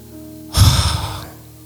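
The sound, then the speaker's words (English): A single deep breath, a loud airy rush that swells quickly, then fades over less than a second, with nothing else around it. “she had me just breathing deep, like”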